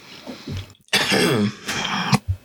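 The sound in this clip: A loud, rasping throat clearing comes in a few harsh, gravelly bursts separated by brief pauses, with no speech around it.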